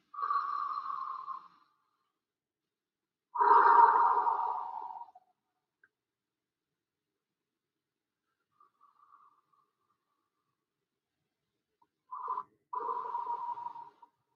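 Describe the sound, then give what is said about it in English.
Slow, deliberate breathing in and out during a guided breathing exercise: a few long, soft, airy breaths separated by long stretches of near silence. “Let's take a couple of breaths.”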